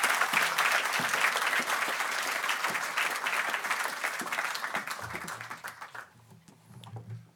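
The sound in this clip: Audience applause welcoming a speaker, Justice Williams, at a lecture event: thick, continuous clapping that stays strong for about five seconds, then thins out and dies away, with a low voice starting as it fades.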